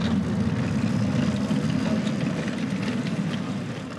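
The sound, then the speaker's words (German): Steady low engine drone of a vehicle shifted into reverse and pulling away at 6 km/h during a remote-control driving test, a continuous even rumble that eases slightly toward the end, with no voices. “Wir sind jetzt schon auf rückwärts. Ja. Jetzt mache ich hier mal Tempo 6 km/h und los geht's.”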